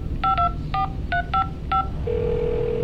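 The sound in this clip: A telephone number is dialed with DTMF keypad tones: six short, bright beeps in an uneven rhythm, then a steady, unbroken line tone that continues to the end.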